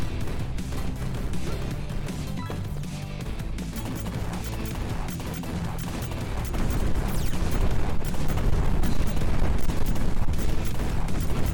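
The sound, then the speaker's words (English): Dense gunfire and explosions in a run-and-gun video game where grenades are being thrown. The rapid shots and blasts form an unbroken barrage that grows slightly louder in the second half, with no voices. “Now we're throwing grenades.”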